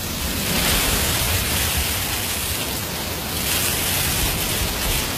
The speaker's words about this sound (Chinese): 妈妈，这是大海的声音吗？